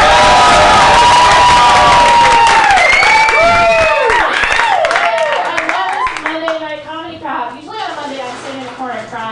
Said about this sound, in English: Ladies and gentlemen, please make a lot of noise for this comic. She is an up-and-coming Atlanta favorite. Please give a very warm welcome to Julie Meritek.